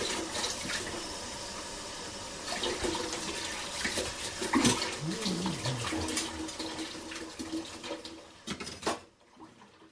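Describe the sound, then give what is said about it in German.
Running water gushes while dishes are washed up in a kitchen during brownie baking, a rushing stream that surges in the middle and then cuts off abruptly near the end. “Also, das heißt, wir müssen hier abspülen. Das dauert einen Moment.”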